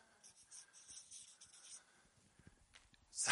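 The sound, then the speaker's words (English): A marker scratches and squeaks across a board as someone writes, giving a quiet run of short, scratchy strokes, then a few soft taps and a louder rub at the end, with no talk. “excuse my bad writing”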